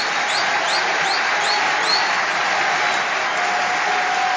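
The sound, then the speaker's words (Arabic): Audience applause, a steady, dense wash of clapping from a crowd that stays loud and even throughout without breaks. “واعطيونا تصفيقة من عند الجمهور.”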